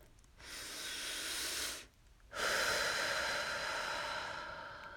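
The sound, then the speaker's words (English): A slow, deep breath: two long, soft airy hisses separated by a brief pause, the second louder and longer. It is quiet and heard alone, without speech. “Deep breath.”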